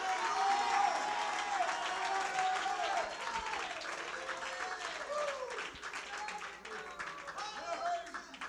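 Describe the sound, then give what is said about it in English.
An audience claps hands during a church service: dense, steady clapping runs through all eight seconds, with voices calling out over it. “Oh, clap your hands unto the Lord. Oh, you people, shout to God with a voice of triumph.”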